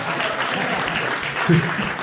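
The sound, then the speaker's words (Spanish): Applause for a singer: a fairly soft, steady patter of clapping from an audience that goes on evenly throughout, with voices talking over it. “Qué buen cantante, ¿eh? Ahí va el aplauso.”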